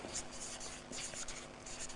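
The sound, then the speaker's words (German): A pen scratches out the day's title in quick, uneven strokes, soft and continuous, with faint rhythmic swells and no talking. “Ich schreibe mal das Titel von heute, das göttliche Geschenk göttliche Geschenk,”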